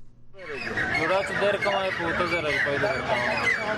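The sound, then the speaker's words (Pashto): Chickens clucking and squawking at a weekly city bird market in Khost: a dense, continuous, loud clamor of many birds that starts abruptly and holds steady throughout. “دا په خوست ښار کې د مرغانو د خرڅلاو مارکیټ دی.”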